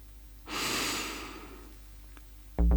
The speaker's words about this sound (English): Take a deep breath.